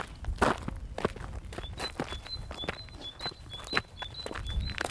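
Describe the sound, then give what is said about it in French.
Footsteps of people walking outdoors along a road, many steady, evenly paced steps at a moderate volume, with no talking. “On se promène. On marche sur une route.”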